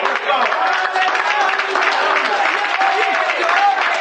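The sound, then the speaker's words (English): A church audience claps steadily in a continuous, even patter, mixed with voices that go on throughout. “You can still clap your hands.”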